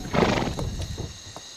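A horse pulling a carriage along a narrowing road gives a loud whinny at the start, followed by a few softer hoof clops.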